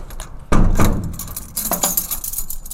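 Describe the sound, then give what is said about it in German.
Keys jangling and turning in the metal door locks of a prison in northern Germany. A few sharp metallic clanks and rattles land in uneven bursts, the first one loudest, with bright chinking in between. “Viele abgeschlossene Türen und vergitterte Fenster. Und manchmal Schlüssel, die sich im Schloss drehen.”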